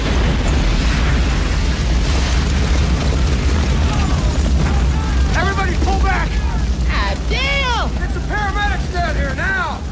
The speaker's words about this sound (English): Suddenly, an explosion rips through the top floor of the building.